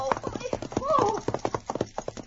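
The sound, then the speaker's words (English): Horse hoofbeats on a trail as a rider's mount slows to a stop on level ground: a rhythmic run of many sharp clip-clop strikes, fairly loud and evenly spaced. “A moment she thought that she was safe, and then she heard hoofbeats close behind.”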